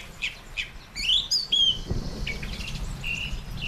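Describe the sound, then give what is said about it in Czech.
Many birds chirping and tweeting in a spring garden beside a large orchard of old fruit trees. A few short, high calls and quick trills overlap in scattered bursts above a soft, low background hush, with no voices. “to jsou zvuky jara. To jsou zvuky jara, slyšíte tady spoustu ptáčků.”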